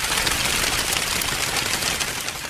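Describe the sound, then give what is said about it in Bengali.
Dry leaves shaken continuously between two hands to imitate pigeons taking flight: a dense, loud, unbroken rustling flutter with no pauses. “তো আপনি যদি কয়েকটি শুকনো পাতাকে দু হাতে নিয়ে সেগুলিকে ক্রমাগত নাড়াতে থাকেন, তাহলে দেখবেন সেই পায়রাগুলোর ওড়ার শব্দটি পেয়ে যাচ্ছেন।”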